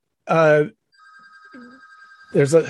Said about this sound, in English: hang on a second. Let me just see if that should stop ringing.